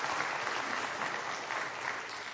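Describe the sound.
Audience applause: a steady, dense patter of many hands clapping at an even level throughout, fairly soft and with no voices standing out.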